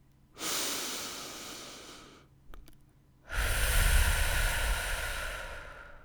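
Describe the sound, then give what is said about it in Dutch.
Deep breathing during a morning meditation exercise: a long airy inhale through the nose, a brief pause with a small sniff, then a longer, louder breath out through the mouth. “Adem diep in door je neus. En uit door je mond. Kijk maar of je tempo iets kan verhogen en blijf rustig doorademen.”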